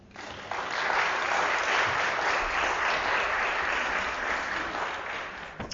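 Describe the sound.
A church audience at a morning service applauds to welcome a visiting speaker. The clapping swells in after a brief quiet start, holds dense and steady, then eases slightly toward the end.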